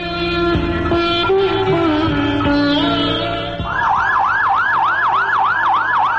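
Loud ambulance siren wailing in a slow, swooping tone, then switching to a rapid, repeated up-and-down yelp that cycles evenly to the end, with no voices.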